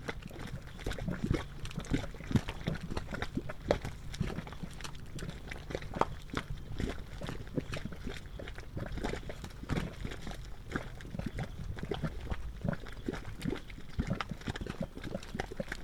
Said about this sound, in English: Various gases from deep within the earth escape through the wet clay mud, causing it to bubble. The gurgles of this multicolored artist paint pot were recorded by John R. Benham.